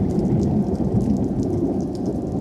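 Steady heavy rain from a developing thunderstorm in Nebraska, a dense unbroken hiss with a strong low rumbling undertone that holds at an even loudness throughout, with no voices.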